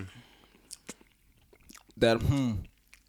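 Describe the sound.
Chewing on a cheesecake that tastes like key lime pie: a few soft, wet mouth clicks, followed by a short voiced sound from the eater.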